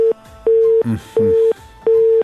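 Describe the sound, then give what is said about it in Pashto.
Telephone busy tone after a call is cut off, steady mid-pitched beeps pulsing in an even on-off rhythm, with a brief voice slipping in between the beeps. “له بده مرغه د عبدالوارث امیری تماس مو سره قطع شو.”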